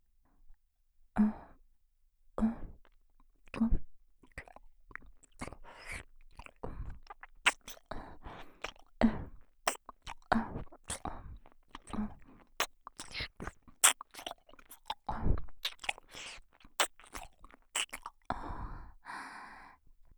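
Close, gentle ear-nibbling ASMR: many soft, wet bites and mouth clicks in an uneven rhythm, woven with quiet breaths and sighs.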